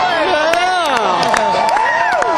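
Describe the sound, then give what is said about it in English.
A concert crowd in Nashville, Tennessee cheers loudly, with many overlapping whoops and shouts forming a continuous roar and individual voices rising and falling above the din. “This crowd right here, they've got them in a frenzy, and they're already back out.”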